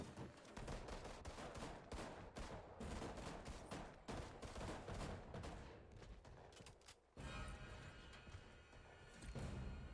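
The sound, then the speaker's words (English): Rapid machine pistol gunfire from a video game, dense continuous bursts of loud overlapping shots that barely pause, with one brief drop in the middle before the firing resumes just as loud. “Y'all are just working this machine pistol right there.”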